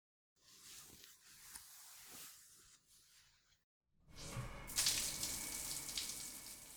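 Water running during a bath with soap, a faint, irregular splashing flow that briefly drops out, then returns as a louder, steadier gush.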